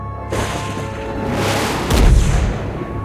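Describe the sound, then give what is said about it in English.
A booming explosion as a probe crashes onto an icy planet surface: a broad, rushing roar builds into a heavy low burst near the end, then eases off. “An explosion marks the point of impact.”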